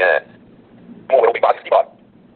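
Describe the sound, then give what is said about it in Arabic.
A short high electronic beep from a PRONTO device as it switches on its wireless network, then after a pause a brief spoken phrase from the device's voice output. “سمعتم نغمة صغيرة كذا، رنة قصيرة، ثم بعد ذلك طلب مني الانتظار، والآن قام بتشغيل الشبكة اللاسلكية.”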